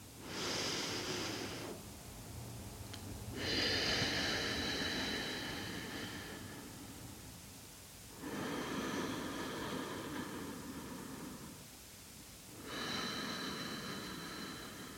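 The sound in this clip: Slow, deep belly breathing during a relaxation exercise: about four long, airy breaths, each lasting a few seconds, separated by short pauses and heard alone.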